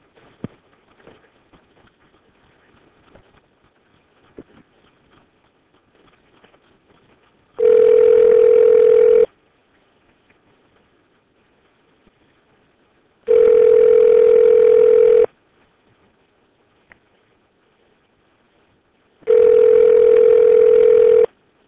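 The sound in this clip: Steady telephone tone sounding as a call is dialed, in three long, loud, even bursts of about two seconds each, separated by quiet gaps of several seconds with faint background noise.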